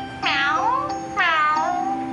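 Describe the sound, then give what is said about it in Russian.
A cat meows twice, each a clear, drawn-out, tonal call that slides downward in pitch. The two meows are separated by a short pause, with no talk. “Ты говоришь, что ты кот?”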